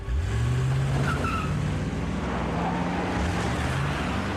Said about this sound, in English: reaches an SUV. He drives away.